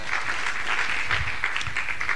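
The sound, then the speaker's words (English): A church audience claps their hands together in steady, continuous applause that holds at an even level for the whole stretch, with no voices standing out. “Clap your hands to God's word.”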